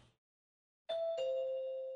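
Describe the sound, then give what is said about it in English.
A doorbell chimes twice, a higher ding followed by a lower, ringing dong, breaking a brief silence as the opening of a Broadway musical number. “ring your doorbell with a little Book of Mormon hello”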